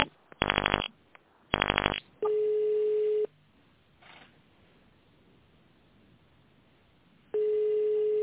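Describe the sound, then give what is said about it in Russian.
Telephone keypad tones dial an extension number: two short, loud tone bursts, followed by a steady electronic tone that sounds twice, once at length after the dialing and again near the end, with a quiet line between. “Пожалуйста, наберите в тональном режиме внутренний номер абонента.”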